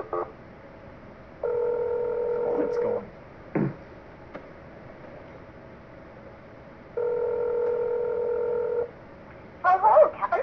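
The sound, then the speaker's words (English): Telephone tones from a call being placed: two long, steady beeps several seconds apart over a hissing line, with a few brief clicks and bursts between them. “You're calling someone, aren't you?”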